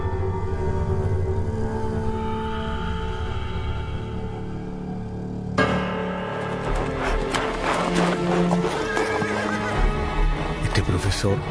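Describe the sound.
Horse urged into a trot: hooves clip-clop steadily and the horse whinnies over a dense, continuous background that grows busier partway through.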